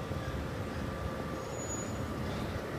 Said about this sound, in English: things are back to normal. There's traffic.